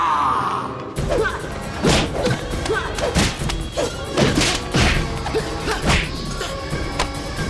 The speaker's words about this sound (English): Silas punches him in the stomach and he slides backwards.